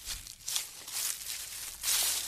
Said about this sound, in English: Walking through the weeds? Yeah, footsteps.